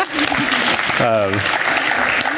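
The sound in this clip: Applause from a church community gathering for a man's wife of 16 years: a loud, dense wash of clapping, with a voice briefly cheering above it partway through.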